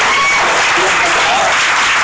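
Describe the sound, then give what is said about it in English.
Audience applause closes a live conversation event, a dense, steady wash of clapping that holds at an even, loud level throughout, with no single claps standing out. “let's give a round of applause for our conversation.”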